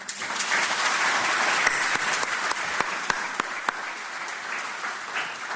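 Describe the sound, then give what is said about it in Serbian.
Audience applause at an award ceremony: a steady wash of many hands clapping, with sharp individual claps standing out, holding at an even level and easing slightly toward the end. “Molim vas pre svega jedan aplauz za njih dve.”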